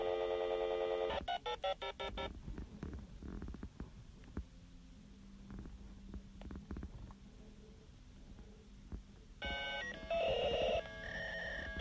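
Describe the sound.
A telephone line dials as a computer connects to a network: steady multi-tone beeps at the start, a long stretch of noisy crackle and clicks, then more tonal beeping near the end.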